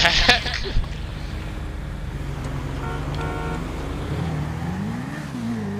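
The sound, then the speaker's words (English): Car engine in the video game Grand Theft Auto V at an in-game car meet: a steady, loud low drone with a couple of sharp knocks early on, its pitch wavering up and down in the second half. “Hey, watch out for that car! Watch out for that!”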